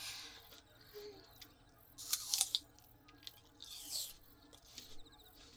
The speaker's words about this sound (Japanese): リンゴのシャキシャキ感が絶妙じゃ。